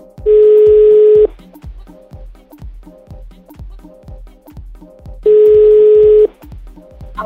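An outgoing telephone call rings: two steady one-second ringing tones sound about four seconds apart over a regular, rhythmic thumping beat that runs throughout.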